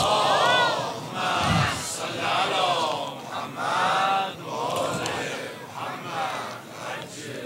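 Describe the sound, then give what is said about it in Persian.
An audience recites salawat in unison, dedicated to Imam Hasan al-Mujtaba: many voices chant together in loud, rhythmic phrases that rise and fall in several swelling waves. “هدیه به پیشگاه با عظمت حضرت مجتبى صلوات الله علیه صلوات هدیه بفرمایید.”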